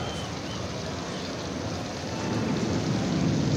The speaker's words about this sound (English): Hey, if you think really hard, maybe we can stop this rain.